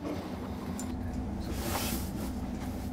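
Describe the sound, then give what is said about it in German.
A symmetrical diesel railcar at a terminal station gives a low, constant rumble with a soft hiss above it, steady and fairly quiet throughout, with no voices. “Endbahnhof Staffenhagen. Auch hier Seitenwechsel. Der Dieseltriebwagen ist symmetrisch.”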